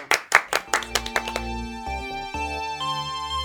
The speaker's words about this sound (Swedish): Tack för mig. Tack. Applåder.